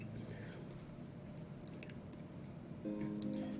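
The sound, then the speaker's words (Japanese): Curry being poured over stir-fried vegetables gives a steady, soft squelching and dripping that runs throughout and grows slightly louder near the end. “だから私は野菜炒めにカレーをかける。もうこれをやってます、今。”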